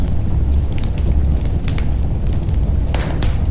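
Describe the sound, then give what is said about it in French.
A campfire burns in damp conditions, giving a low, steady rushing roar broken by scattered sharp crackles and pops, with a brighter burst near the end. “C'est vrai que c'est vraiment le feu, je pourrais y rester des heures à côté.”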